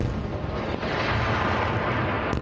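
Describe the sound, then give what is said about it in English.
Explosions from renewed fighting between Israel and Hamas in Gaza come through as a steady, heavy, deep rumbling roar that holds at an even loudness, with no clear separate blasts. “More explosions as renewed fighting continues between Israel and Hamas.”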